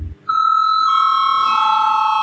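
A sustained electronic bell tone rings in a parliament chamber to call members to a vote. It starts after a brief quiet moment and holds loud and steady to the end.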